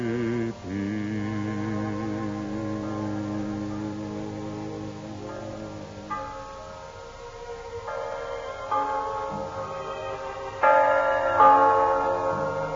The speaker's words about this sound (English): Hear that? The bells of Christmas 1945 ring out clear and free around the world to you. Listen to them.